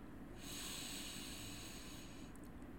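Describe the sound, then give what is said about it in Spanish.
A deep, slow inhale through the nose during a guided yoga nidra relaxation: one steady, airy hiss lasting about two seconds, with no talking. “Inhalas profundo por la nariz.”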